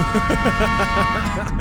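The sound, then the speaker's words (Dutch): A train horn holding a steady, sustained chord-like tone for the whole clip, with a voice talking over it. “Het is echt een van de beste toeters die ik ooit in de trein heb gehoord.”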